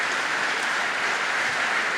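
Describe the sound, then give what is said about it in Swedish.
Audience applause after a Bach concert of partitas: a dense, even roar of many hands clapping, sustained at a steady moderate level with no distinct voices standing out. “Ja, ni hör. Jubel blir det.”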